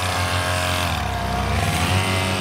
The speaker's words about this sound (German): So wird's heute nämlich ganz oft klingen im Ländle. Alle echten Vespa-Fans treffen sich in Koblach-Straßenhäuser zum Sommerfest vom Vespa- und Lambretta-Club.